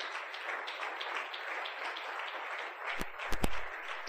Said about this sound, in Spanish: Regálale un aplauso más a mi Señor.